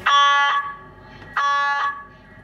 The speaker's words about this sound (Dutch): Wat een herrie. En daarom hebben wij dus de geluidsverbinding dicht staan als wij de patiënt aan het scannen zijn.